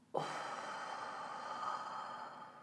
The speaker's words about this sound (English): One more, deep breath in, and out.